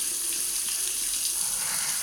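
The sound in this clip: Steady hiss of a running shower, a continuous bright spray of falling water that never breaks or changes, heard on its own without voices.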